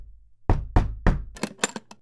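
Knocking on a house door in a neighbourhood: three heavy, evenly spaced thuds followed by a quicker burst of lighter raps, loud and alone.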